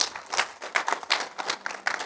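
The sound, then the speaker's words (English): A church audience claps in applause, a dense, steady patter of many hands that keeps going for the whole moment. “Can we give Pastor Taylor another hand clap?”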